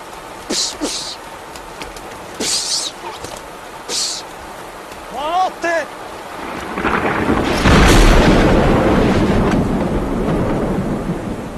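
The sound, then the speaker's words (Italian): A thunderclap from a lightning strike during a rainstorm crashes in and rolls on as a long, loud rumble, after a stretch of rain patter broken by a few short, sharp bursts. “Fulminato, dottore, fulminato. La saetta l'aveva attraversato completamente.”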